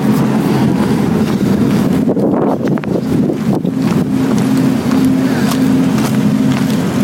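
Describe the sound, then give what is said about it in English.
A generator runs through the night beside a tent, giving a loud, steady low drone with a constant tonal hum and a rough, wind-like rush layered over it. “A generator goes all night.”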